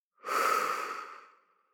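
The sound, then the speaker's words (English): A single deep breath, drawn in and let out as one soft, airy rush of breath noise that swells quickly and then fades slowly, with no talking. “we're going to take a deep breath in and out. So breathing in and out.”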